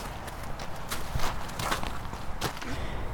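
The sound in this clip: Footsteps of people walking carefully in single file up a hill outdoors, heading toward a shelter site near a forest. The soft, quiet steps come many times in an uneven rhythm.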